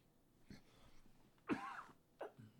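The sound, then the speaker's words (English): A person coughs a few times, faintly: one soft cough, then a stronger throaty burst midway, then a shorter cough near the end. “Really didn't mean to do that. And that's, that coughing is one reason I've been off the podcast thing for a bit, but that snuck up on me.”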